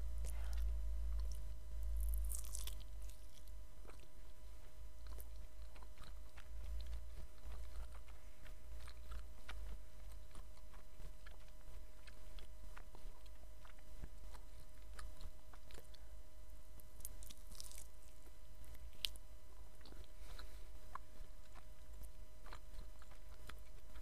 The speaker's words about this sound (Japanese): 今串半分ぐらい出たところに来てます。さすがにこれは横から食べよう。